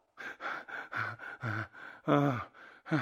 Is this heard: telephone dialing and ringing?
no